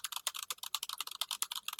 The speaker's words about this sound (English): That is the sound of me writing a call-out post.